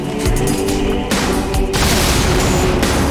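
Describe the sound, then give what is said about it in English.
A rocket explosion in a video game gives a few loud booming blasts in quick succession, each a sharp burst followed by rumbling noise that stays dense to the end. “Yeah, because you shot it with a rocket.”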